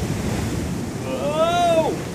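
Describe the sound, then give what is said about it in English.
A big wave breaks against a sailing boat at sea amid wind-blown surf, a steady broad rushing roar that swells slightly toward the end. “And, oh, watch out for that big wave!”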